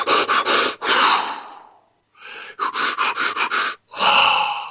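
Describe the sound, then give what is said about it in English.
Deep pranayama-style breathing exercise, kundalini-style breaths: loud rapid clusters of short, forceful breaths alternating with long, drawn-out breaths, separated by brief pauses, with no talking. “And let's take some big, deep kundalini-style breaths, some pranayama-style breaths, to clear out any habitual stagnant energy. It looks a little bit like this.”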